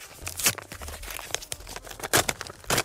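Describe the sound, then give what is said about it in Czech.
A paper envelope being torn open by hand: a run of crinkly, rustling tears with a few sharper bursts, uneven in rhythm and fairly quiet. “Rozbaluju teda obálku.”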